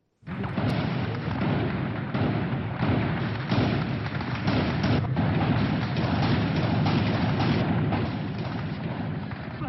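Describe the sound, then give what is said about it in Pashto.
Gunfire from Islamic State fighters attacking government buildings in Ramadi, Anbar province: a dense, loud, unbroken roar of shots and heavy thuds that runs the whole clip, with no pauses. “دا د انبار ولایت د رمادي په ښار کې په حکومتي ودانیو د اسلامي دولت د جګړه مارانو د ډزو ژغونه دي.”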